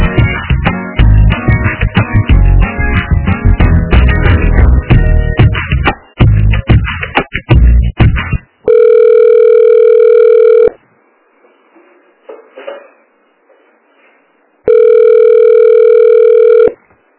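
Telephone line tones heard while a call is being transferred: after a dense stretch of tonal hold audio, two long, loud, steady ringback tones sound with a silent gap between them. No voices.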